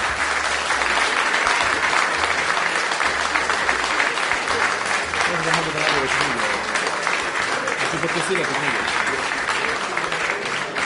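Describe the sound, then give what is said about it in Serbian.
Audience applause for a poet after a live poetry reading evening: dense, steady clapping that holds at an even, full level for about eleven seconds without breaking off. “I ja vas molim za kraj još jedan veliki aplauz za Dragana Jovanovića Danilova.”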